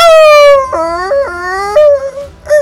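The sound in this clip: A wolf's pained cry after being struck by a small ball of fire in a fantasy tabletop game: a loud, wavering whine with abrupt pitch breaks, then a brief separate yelp at the end.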